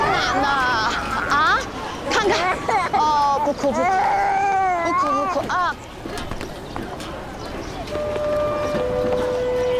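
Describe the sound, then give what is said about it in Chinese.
An infant crying in loud, wavering wails amid busy chatter and crowd babble, with other voices talking over it. The cries are strongest through the first half before steadier tones take over. “哦，不哭不哭，不哭不哭啊！”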